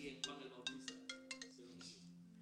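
A mobile phone rings during a conference in Houston with a faint, melodic ringtone of quick bright pulses over a steady low tone, lasting about two seconds.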